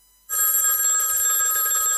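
A telephone rings at home, a bright, continuous trilling bell that starts after a brief quiet moment and sounds steadily and loudly until the end.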